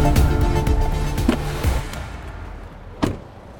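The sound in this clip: An electric car drives out toward a charging station, with a steady low rumble and road noise that slowly fades, a few faint knocks partway through, and one sharper click near the end.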